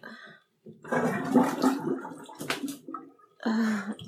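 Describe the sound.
Bathtub water draining, a loud gurgling, sloshing rush that comes in a few uneven surges with short pauses between them.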